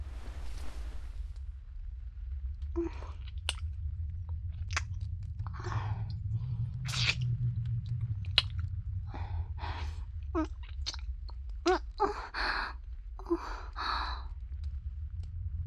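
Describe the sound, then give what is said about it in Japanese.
Soft, wet kissing smacks and lip clicks in a close, intimate role-play repeat irregularly many times over a low, steady hum, with no talk. “口づけはお気に召しませんでしたか。お気に召していただけたのですね。”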